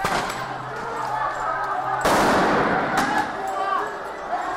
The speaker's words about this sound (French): Bombe de désencerclement.